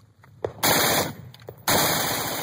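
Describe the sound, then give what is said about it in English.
Rifle fitted with a bump stock firing rapidly, with a couple of sharp single shots followed by two loud, dense bursts of fire that blur into continuous rattling. “As the weapon bucks fast against the trigger finger, it dramatically accelerates the rate of fire.”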